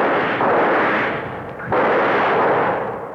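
Heavy gunfire with two booming blasts, each swelling into a long, dense, noisy roar that fades away, with no voices.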